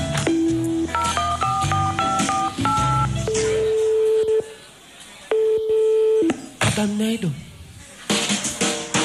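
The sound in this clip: A telephone number is dialed on a touch-tone keypad, producing a rapid run of many short beeps at differing pitches. Two long, steady tones follow.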